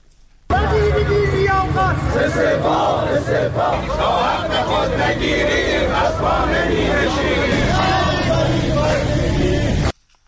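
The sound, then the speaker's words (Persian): Retired telecom company workers at a protest rally in Iran's provinces chant slogans in unison, a loud, dense crowd roar that starts abruptly and holds for about nine seconds before cutting off. “بازنشستگان شرکت مخابرات هم در مراکز برخی استان‌ها از جمله خوزستان، گیلان، خراسان رضوی و ایلام دست به تجمع زدند و شعارهای اعتراضی سر دادند.”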